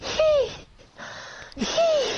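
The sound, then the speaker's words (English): A voice imitates a boy wheezing after sprints: two high, squeaky, strained breaths with a thin whistling tone, separated by a short pause. “That boy wheezing. That boy wheezing.”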